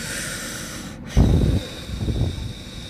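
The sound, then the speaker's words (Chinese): Slow, deliberate breathing demonstrated by a person: two long, soft breath sounds, the first a fuller rush of air and the second a quieter, gentler draw. “你要开始学会呼吸，这样呼吸。”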